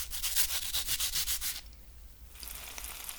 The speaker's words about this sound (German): Wart mal eben, ich muss mal hier nochmal eben ein paar Kartoffelchen reiben und dann schnell den Teig ins Fett hauen.